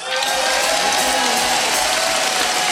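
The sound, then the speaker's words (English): Audience applause and cheering for Ileana Ross at a live salsa concert, a dense, steady wash of clapping and crowd noise held at an even level throughout. “I wanna ask you a big noise for Ileana Ross.”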